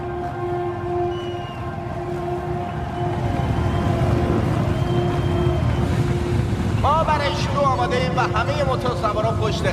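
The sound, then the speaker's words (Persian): Racing boat engines warm up before a race with a steady, rumbling drone and a faint constant hum. Voices come in over the engines during the last few seconds. “آمادگی نهایی، موتورها دارن گرم میشن”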